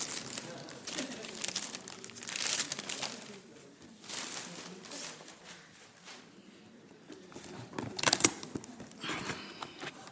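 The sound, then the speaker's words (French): Paper crinkles and tears as gift packaging is ripped open, with cardboard boxes of Adidas shoes among the presents. Rough, rustling bursts come in a few waves with a sharper rip near the end, and people talk over the noise. “Il faut déchirer, c'est ça? Déchire. Voilà.”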